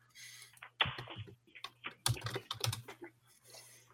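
Typing on a computer keyboard: irregular bursts of quiet, crisp key clicks, some in rapid clusters and others separated by short pauses, over a faint, steady low hum.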